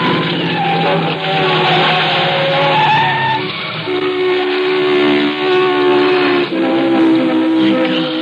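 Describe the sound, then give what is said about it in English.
Tires screech as a car swerves and skids after its front tire blows out, a loud, sustained squeal with wavering, shifting pitch that lasts several seconds. “The tire blew out. Oh, we're lucky. No one hit us.”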